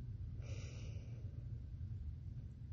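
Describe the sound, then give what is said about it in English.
A single deep breath drawn in through the nose during a guided breathing exercise, a short, soft breathy hiss lasting under a second over a faint low rumble. “take deep breaths for me, okay? In through the nose”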